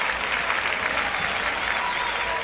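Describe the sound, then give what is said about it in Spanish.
Applause from a crowd during a live band performance: dense, continuous clapping that holds steady and loud from start to finish. “¡Fuerte aplauso!”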